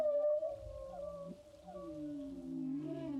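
Whale calls: faint, drawn-out tonal moans and low groans, several overlapping and bending gently in pitch, with a slowly rising call toward the end.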